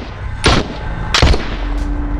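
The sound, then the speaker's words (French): Gunfire from a riot police officer shooting at attackers: two loud, sharp blasts about a second apart, then a fainter third report, all over a dense, rumbling background noise. “Le CRS ouvre immédiatement le feu.”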